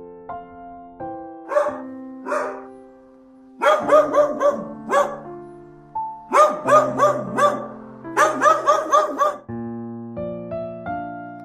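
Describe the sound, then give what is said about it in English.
A dog barks in many rapid bursts, loud sharp yips bunched into clusters with brief pauses between them, no voices present. “Dog.”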